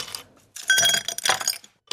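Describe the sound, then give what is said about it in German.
Ice cubes dropped into a glass: a few bright clinks and rattles with a short glassy ring, separated by brief gaps of quiet, with no voices. “Mit ein paar Eiswürfeln. Die da in ein Glas reingetan werden.”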